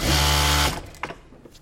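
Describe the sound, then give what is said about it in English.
A sewing machine in an American clothing factory runs with a loud, fast mechanical whir for under a second, then stops, leaving a few faint clicks. “to see the sewing machines at work and to talk to the people who are trying to bring back the art of making clothes in America.”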